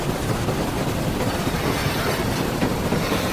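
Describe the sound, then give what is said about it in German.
A train slowing down on the rails makes a steady, dense rumble with a rattling clatter from the wheels and cars. The sound stays loud and even throughout, with no voices. “Es hat den Anschein, als würde der Zug langsamer. Ja, und zwar deutlich.”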